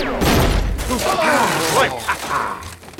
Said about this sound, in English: Oh, now I remember. That ain't a magic wand. What the? Some kind of alien death ray.